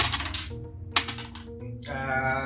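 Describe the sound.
Dice roll for a tabletop role-playing game: a brief, faint run of sharp clicks and clattering taps as they tumble and settle.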